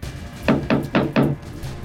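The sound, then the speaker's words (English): Four evenly spaced knocks on a wooden door, each a firm, dull thud, in a staged children's play where a wolf knocks at a pig's house. The knocks are loud, with quiet before and after. “Third pig shuts the door. Then there is a knock.”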